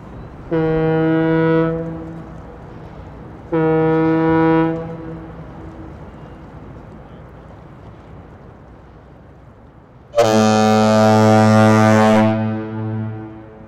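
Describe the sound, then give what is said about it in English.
Bridge foghorns sounding during a test: three loud, deep, droning blasts. The first two are short and alike, and after a long pause comes a longer, lower, harsher third blast. “Electric Choctaw Bridge personnel, we're going to energize our foghorns for a test.”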